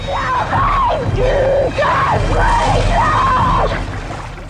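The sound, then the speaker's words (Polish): A girl screams in a shark-attack film scene at a beach: repeated loud, panicked cries with a wavering pitch that rises and falls, heard over a steady rushing background. “Chłopak jest daleko, nie słyszy krzyków dziewczyny.”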